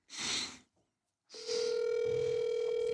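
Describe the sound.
An outgoing phone call's ringing tone plays as a steady mid-pitched tone that holds to the end, coming in after a short burst of rustling noise and a brief pause.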